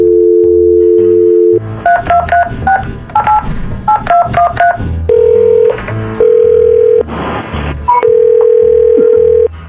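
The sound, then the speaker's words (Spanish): Touch-tone telephone dialing: a steady dial tone, then a rapid run of short paired dialing beeps, followed by longer steady tones that alternate with brief pauses. “Porque vamos a marcar, ¿ok? No hables.”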